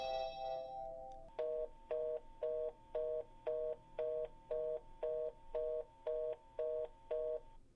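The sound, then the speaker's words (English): Telephone ringing with an electronic tone: a brief higher tone first, then a long, steady series of short, evenly spaced two-tone beeps, fairly faint. “phone call.”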